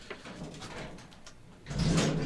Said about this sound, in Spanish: Abrimos, cerramos la puerta y... Y nada, eso. Cerramos la puerta y nos vamos.